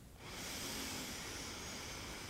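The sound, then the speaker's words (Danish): A deep breath is drawn in during a guided relaxation, a steady, airy hiss that starts abruptly and holds evenly for about two seconds, quiet and alone. “lad os bare lige starte med at tage en dyb indånding sammen.”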